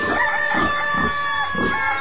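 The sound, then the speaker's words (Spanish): A rooster crows at dawn, a single drawn-out call with a rising and falling rhythm over a steady background, alongside a thin sustained tone. “Un gallo madrugador al sol viene despertando”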